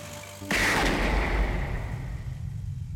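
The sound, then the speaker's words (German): A single .45-caliber pistol shot fired at a departing car cracks out loud and sudden after a low hum, its heavy boom ringing on and slowly decaying over the following seconds. “Er feuert einen Schuss auf den davonfahrenden Wagen ab und bricht zusammen.”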